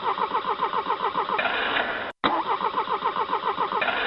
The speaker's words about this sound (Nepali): Sir, यो generator नै start भइरहेको छैन।